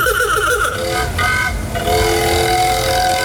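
The petrol engine of a 1910 Ford Model T runs with a steady, rattling, buzzy drone. It stays loud and continuous for about three seconds.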